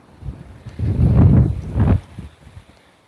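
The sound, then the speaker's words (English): Wind blowing outdoors along a city street at night, heard as low rumbling gusts buffeting the microphone, swelling in two strong surges before dropping back to a faint breeze. “Wind at my back here now.”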